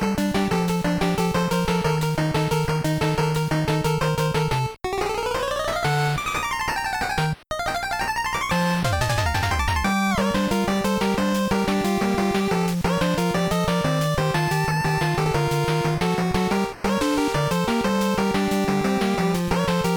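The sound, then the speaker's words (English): Full title screen music from a video game plays as a continuous, bright synthesized chiptune, with a steady bass line beneath busy melodic lines. A rapid pitch sweep comes near the middle, and the track cuts out briefly a few times. “So there is more to the track. And if they just let it sit on the title screen longer before looping back to the intro, you would get to hear the full thing. Which sounds like this.”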